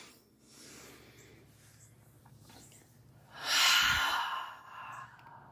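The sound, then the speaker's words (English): Deep breathing, drawn in through the nose and let out through the mouth during a relaxation exercise: a quiet, soft intake followed by a louder, airy exhale that fades away. “breathe through your belly like it's blowing up like a balloon. And release through the mouth. Do it one more time with me, in through the nose.”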